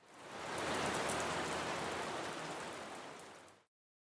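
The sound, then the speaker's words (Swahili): Heavy rain pouring down in a dense, steady hiss that swells early, holds strong, then eases slightly before cutting off abruptly, with no voices. “hebu tuisikilize nguvu ya mvua inavyonyesha.”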